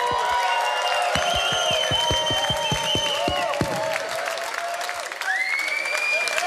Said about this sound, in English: Make some fucking noise to yourself.